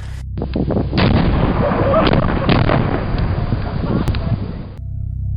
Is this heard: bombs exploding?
yes